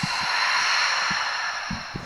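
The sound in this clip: A slow, deep breath in and out during a guided group relaxation with eyes closed: a steady, airy hiss lasting the whole moment, with a few soft low thumps underneath.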